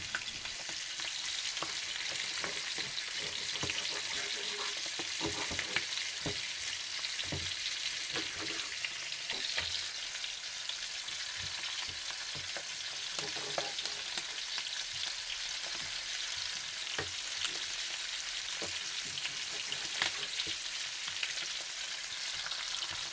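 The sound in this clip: Pieces of food sizzle and fry in a pan of half butter, half olive oil, a steady crackling hiss with occasional louder pops and stirring scrapes throughout.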